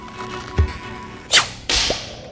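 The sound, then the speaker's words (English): Rocket slingshot launching with a soft thud, then two sharp whooshing snaps in quick succession, loud against a steady background hiss. “Launch it. I think you go like this.”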